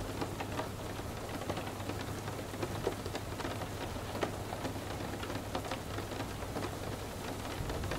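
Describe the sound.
Soft, steady rain pattering on a surface, countless tiny droplets tapping evenly with a constant hiss beneath, quiet and unbroken throughout with no voices.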